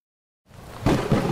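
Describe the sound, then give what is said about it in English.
A storm's thunder builds as a broad, low rumble out of silence, then swells into a louder, rough roar that holds steady with a second surge near the end. “Our magic put a storm in the sky that has rendered the surface of our planet uninhabitable.”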